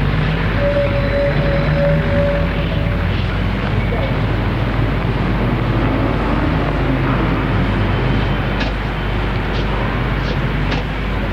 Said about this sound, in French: Je prends le car.